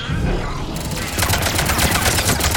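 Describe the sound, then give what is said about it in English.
Rapid gunfire in a first-person shooter video game with mechs, a dense crackle of shots that runs throughout and grows louder and busier after the first second. “And there we go. A few bullets here and there.”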